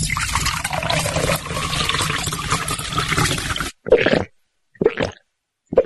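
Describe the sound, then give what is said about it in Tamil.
Cool buttermilk (neer mor) poured out for a thirsty man: a steady, splashy stream of liquid runs for nearly four seconds, then stops, followed by a few brief, separate bursts of sound. “ஐயா நீங்க களைப்பா வருவீங்கன்னு தெரிஞ்சுதான் குளிர்ச்சியான நீர்மோர் தயார் பண்ணி வச்சிருக்கேன். இந்தாங்க ஐயா, குடிங்க ஐயா.”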